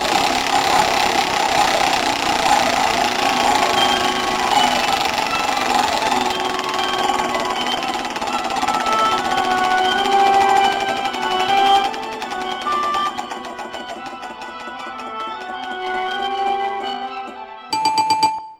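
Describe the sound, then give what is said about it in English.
A spun prize wheel clicking in rapid, rattling ticks during the final seconds, following a long stretch of dense, steady sound. “it's time to spin the Wheel of Mutation. Give that thing a whirl, Cootie.”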